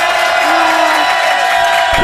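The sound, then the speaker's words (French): A live studio audience applauds and cheers. Loud, dense clapping blends with whoops and shouts in a continuous roar that holds steady throughout. “Coé sur Énergie avec un public génial qui va vous applaudir”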